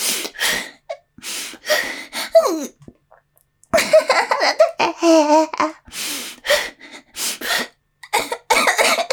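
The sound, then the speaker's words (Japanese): Repeated coughing fits during a breathing exercise, the coughs coming in loud bursts mixed with laughter and gasping breaths, with brief quiet gaps between bouts. “我慢しようとしたら咳込んじゃう。”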